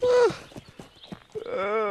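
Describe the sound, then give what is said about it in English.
A horse gallops toward a fence: quick, evenly spaced hoofbeats come as a series of sharp thuds, with brighter tonal sounds at the start and the end. “They gallop towards a fence, but the horse refuses it, sending Toad over the top.”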